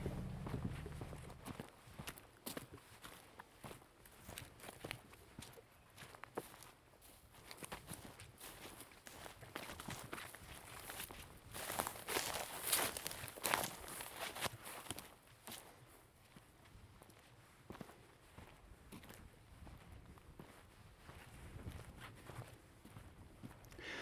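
Footsteps walking into a leafy deciduous grove on Svenska Högarna: a long run of many soft, rustling steps on the ground, faint and irregular, with steady background noise throughout.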